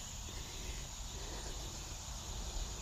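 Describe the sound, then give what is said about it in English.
Cicadas and crickets chirp outdoors in a steady, unbroken high-pitched insect drone that stays at an even, faint level throughout. “So notice what sound you hear. I can hear the cicadas, the crickets, some of the birds.”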